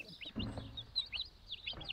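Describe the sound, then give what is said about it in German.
Quiet, high-pitched peeping of chicks in a fenced nest beside a brooding turkey hen. Many short chirps come in quick, uneven bursts with a faint low rustle beneath. “Die bekommt als erstes Küken. Damit die Küken nicht ausreißen, hatte Christine das Nest mit Gittern abgedichtet und kann jetzt nur zuhören.”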